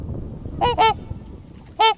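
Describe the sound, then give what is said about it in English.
Trumpeter swans roosting on the water near the ice edges call with rich, resonant, trumpet-like honks, three loud calls, the first two close together and the third after a pause, over a low murmur. “The trumpeter swan has this really rich trumpet-like call.”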